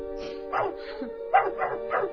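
A dog gives a run of short, yelping barks, several coming in quick succession at moderate loudness over a faint sustained tone, with no talk.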